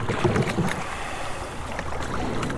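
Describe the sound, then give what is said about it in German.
Rowing in a heavy 70-year-old wooden boat built by the Volkswerft Stralsund shipyard gives a steady, dense wash of water and wind noise with no distinct separate strokes and no voices. “In einem schweren, 70 Jahre alten Holzboot der Volkswerft Stralsund. Er navigiert vom Bug aus, indem er sich immer wieder umdreht. Ich sitze auf dem Schlagplatz.”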